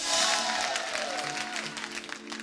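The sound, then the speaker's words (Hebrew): Audience applause at a live show, a dense, steady wash of clapping with some crowd cheering that holds at an even level throughout, with faint tonal sounds drifting underneath. “איפה כפיים פה לאברי מירות?”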